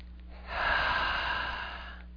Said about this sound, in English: Nice deep breath, please.